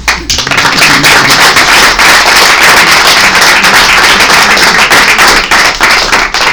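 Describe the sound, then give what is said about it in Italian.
Loud, sustained audience applause during a speech, a dense rattle of many hands clapping that continues without pause from start to finish. “E a questo punto ho perso un po' il filo del discorso, gli applausi mi stordiscono.”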